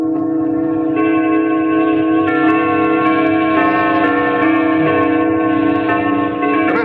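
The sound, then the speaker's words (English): Many church bells ring together across a town at eight o'clock, their overlapping peals forming a dense, steady, resonant clangor. The ringing is loud and continuous, with no voices. “These bells? Yeah, this whole town is standing on its ear, and nobody seems to know why they're ringing.”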